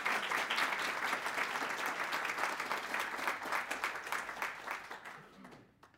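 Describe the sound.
Applause from the audience at a City Club of Cleveland forum as a poet is welcomed. The dense, even clapping fades away in the last second.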